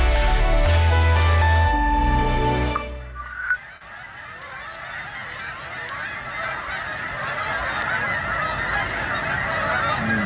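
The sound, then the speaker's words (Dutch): Canada geese honking: many harsh, nasal calls overlapping in a loud, continuous chorus. “De Canadese gans is van oorsprong een trekvogel.”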